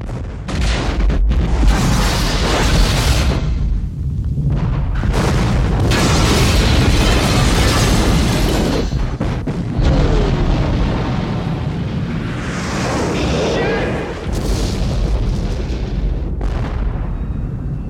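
A C4 charge exploding down an elevator shaft in an action film: a loud, sustained boom and roar with a heavy low rumble that fills the whole stretch, briefly dipping a few times before surging again.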